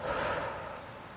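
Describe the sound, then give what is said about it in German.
A deep breath drawn in through the nose and let out through the mouth during a relaxation exercise, a single soft, airy rush of breath that fades away. “Und dann atme einmal ganz tief durch die Nase ein und durch den Mund wieder aus.”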